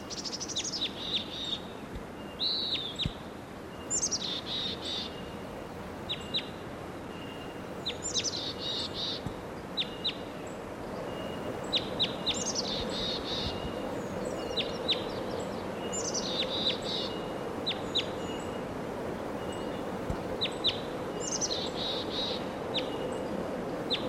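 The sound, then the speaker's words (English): Calls of a wild bird ring out as short, high chirping bursts repeated roughly every few seconds, faint above a steady hiss of outdoor background noise with no talking. “there's that wild bird.”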